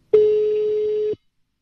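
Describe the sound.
An outgoing telephone call rings: a single steady, mid-pitched ringback tone sounds for about one second and then cuts off cleanly into silence.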